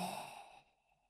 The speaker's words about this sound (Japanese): 私の言うペースに合わせて深呼吸してね。今度は苦しくなるくらい、吸って、吐いて、